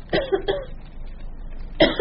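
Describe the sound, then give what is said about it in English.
Coughing comes from beneath a table in a room thick with tobacco smoke: a few short, rough coughs close together early on, then a quiet gap before one more loud cough near the end. “From beneath a table comes a cough.”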